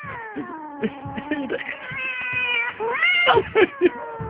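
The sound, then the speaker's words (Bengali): A cat meows repeatedly in a string of drawn-out, wavering, caterwaul-like calls of shifting pitch, moderately loud and with no talking, ending in a few shorter, sharper yowls. “বিড়াল ডাকলে ভয় পাও”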